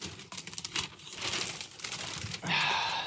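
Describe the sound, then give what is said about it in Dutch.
Wrapping paper crinkles and tears as a very large gift is unwrapped, with continuous rustling that swells into a louder, brighter rip near the end. “Kan ik hem zo uitpakken? Is het goed voor het beeld? Wacht, ik maak hem. Ik probeer hem Wacht, ik eh, ga hem openmaken.”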